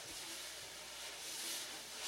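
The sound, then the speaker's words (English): A jazz brush stirs steadily across a snare drum head, giving a continuous, even, washy swish with no breaks or accents, heard alone. “You use the first one to sort of stir steadily across the head of the snare drum, which gets you this steady, washy sound.”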